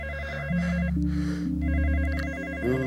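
A telephone rings with a loud electronic warbling tone that repeats steadily over a low sustained hum for about three seconds.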